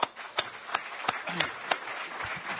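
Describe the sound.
An audience applauds a panel after a policy discussion, with a handful of sharp, evenly spaced claps in a slow, steady rhythm.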